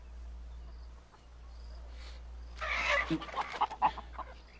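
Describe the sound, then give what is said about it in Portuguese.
Chickens clucking, a quick cluster of short, sharp calls bursting out in the latter half over a steady low hum, with no talking. “Galinhas.”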